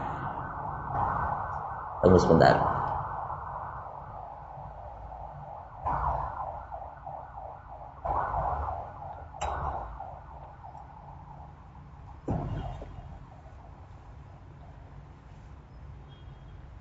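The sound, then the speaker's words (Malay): An ambulance siren wails throughout, a continuous warbling tone broken by a few louder bursts of noise, with a voice speaking briefly over it. “Kata kita dengar bunyi seperti ini, langsung berada di benak kita ke Sarjito ataukah ke rumah sakit sebelah”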